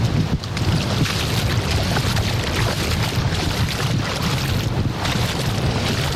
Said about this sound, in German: So, ihr hört das, oder? Ja. Vor genau einer Stunde sind wir losgeflogen und jetzt stehe ich mit den Füßen auf der Insel Jüst im Wasser.